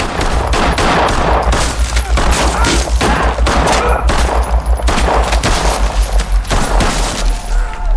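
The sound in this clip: Gunshots are fired wildly in a dense, continuous barrage. Many loud, cracking shots pile up over a low rumble with no real pause across the whole stretch.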